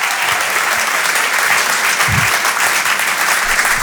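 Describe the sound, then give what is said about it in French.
A comedy club audience applauds as a comedian is introduced. The clapping is a dense, loud wash that holds steady throughout, with no one speaking over it. “Mesdames et messieurs, faites du bruit pour Guillaume, s'il vous plaît, Guillaume.”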